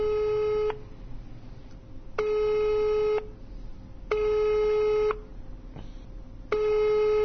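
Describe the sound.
Telephone busy signal: a steady, even tone repeating in about four bursts of roughly a second each, separated by equal quiet gaps, with no voices.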